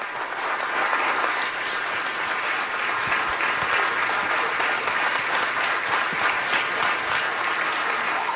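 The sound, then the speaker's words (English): A standing ovation breaks out, with loud, dense applause from a large crowd. The clapping holds at a steady, unbroken level throughout, with no voices standing out above it. “A standing ovation. Standing ovation. Wow.”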